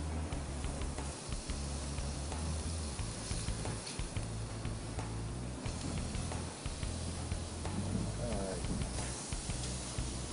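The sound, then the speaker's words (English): Short ribs in a sugary barbecue sauce sear on a barbecue with a steady, dense sizzling hiss that runs the whole clip without a break. “All right, so all we're going to do is just sear these both sides.”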